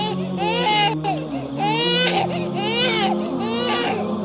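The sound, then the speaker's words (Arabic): A young boy being weaned from nursing cries without stopping: repeated loud, high wailing bursts with wavering pitch, one after another. “يا مات الله، ما بال هذا الصبي لا يكف عن البكاء؟ اتق الله واحسن الى صبيك.”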